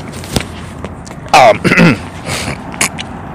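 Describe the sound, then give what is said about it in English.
Throat clearing with phlegm: one loud, rough, gravelly rasp in two quick parts, standing out briefly from a quiet, low background. “Excuse me, a lot of phlegm in my throat.”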